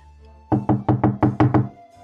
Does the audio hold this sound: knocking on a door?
yes

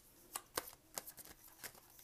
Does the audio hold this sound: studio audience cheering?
no

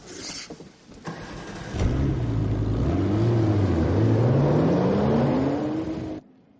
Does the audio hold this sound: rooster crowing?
no

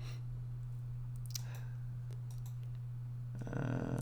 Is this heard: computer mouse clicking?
yes

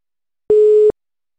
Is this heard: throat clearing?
no

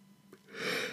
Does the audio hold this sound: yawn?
yes

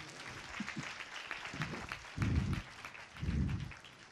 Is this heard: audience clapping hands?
yes

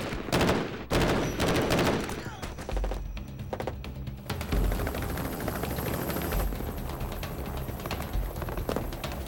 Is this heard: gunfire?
yes

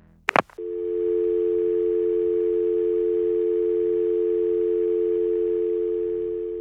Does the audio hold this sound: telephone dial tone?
yes

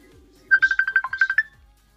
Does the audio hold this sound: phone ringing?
yes

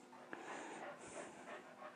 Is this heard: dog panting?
yes

